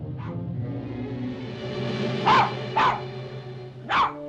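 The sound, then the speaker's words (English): A terrier barks a few times, loud, abrupt yaps spaced unevenly over a low background rumble, with a faint earlier yip before the main barks. “It's that dog.”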